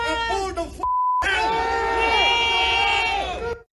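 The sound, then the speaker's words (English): Crowd cheers and shouts at the end of an anti-immigration protest outside a Garda station. A loud shouting voice is cut by a short high censor beep, then a sustained burst of raised, overlapping voices follows before ending abruptly. “That is what we hear to the cheers there at the end of the anti-immigration protest.”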